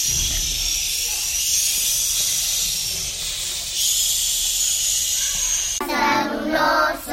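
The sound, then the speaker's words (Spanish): Howling wind of a snowstorm rushes as a loud, steady hiss that fills the whole clip, swelling and easing slightly in level. “Una tormenta de viento y nieve.”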